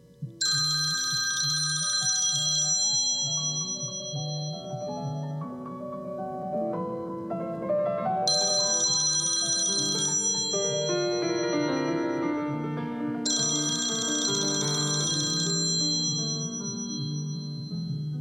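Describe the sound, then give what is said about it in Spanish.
An old telephone bell rings in a house in three long bursts of about two seconds each, bright and loud over a steady tonal background. “Un día en la casa de la calle Obligado sonó el teléfono.”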